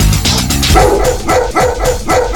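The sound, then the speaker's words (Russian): Chukotka sled dogs barking: a loud, continuous run of many rhythmic barks and high yips, overlapping one another without a pause. “Ездовые собаки Чукотки – настоящие стайеры.”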